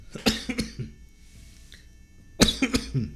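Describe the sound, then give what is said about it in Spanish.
A person coughing in two bouts, each a rapid cluster of several harsh coughs, separated by a quiet gap of more than a second; fairly loud and with no talk between them. “se me dio tos.”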